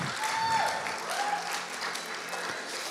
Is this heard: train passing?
no